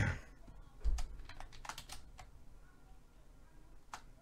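Faint typing on a computer keyboard, a scattered run of light clicks that thins out, with one last isolated tap near the end.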